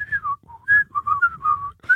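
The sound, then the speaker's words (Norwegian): A person whistles a short melody alone, with clear bright tones moving through about a dozen quick notes, some sliding slightly in pitch, separated by brief breaths. “og ingen av oss er hverken Roger Whittaker eller Atle Antonsen, så det er en plystring.”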